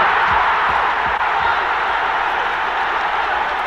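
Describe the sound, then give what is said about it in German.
Cheering of English football fans after a goal forms a loud, steady crowd roar that holds without a break from start to finish. “Riesengroß der Jubel der Engländer.”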